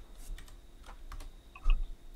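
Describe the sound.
Someone types on a computer keyboard, producing a few sparse, light key clicks followed by one sharper, louder tap near the end.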